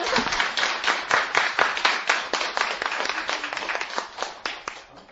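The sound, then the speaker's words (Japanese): A group of children gives a round of applause during a language lesson, steady, brisk clapping that holds at an even level throughout with no voices over it. “みんな楽しそうな笑顔で、もう一回拍手で自分たち”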